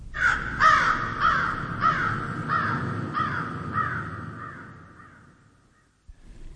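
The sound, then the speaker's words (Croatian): A raven caws in a long series of harsh, evenly spaced calls that gradually fade out, with no voices. “Gavran. Gavran. Da. Gavran.”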